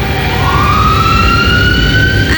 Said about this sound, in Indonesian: Ampun, takut banget deh kalau ambulan udah lewat. Mana mepet banget lagi sama kendaraan lain.